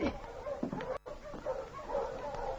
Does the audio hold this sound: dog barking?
yes